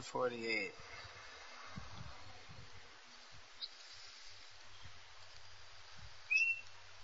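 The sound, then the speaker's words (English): Bird calls, faint: a few quick rising chirps at the start and one sharp whistled note near the end, over quiet background noise with soft low thumps between them. “What's that? It's the bird?”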